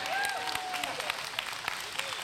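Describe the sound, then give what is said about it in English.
An audience claps after hearing of a couple's 30th wedding anniversary, a spread of sharp hand claps forming a steady, moderate patter with voices heard over it. “All right, go ahead and clap.”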